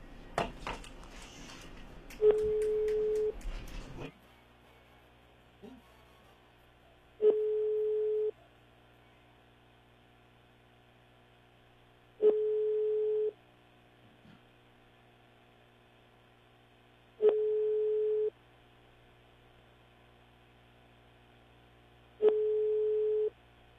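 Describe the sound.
Telephone ringback tones sound on a line while a call to a listener is being placed: five steady, mid-pitched beeps, each about a second long, evenly spaced roughly five seconds apart. A short burst of noise comes before the first tone.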